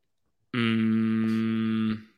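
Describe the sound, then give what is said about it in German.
A single stomach growl sounds as a sustained low, buzzy tone lasting about a second and a half, steady in pitch and loud, with no talk over it. “Was war das denn für ein geiles Magenknurren von dir auf mein gar nichts?”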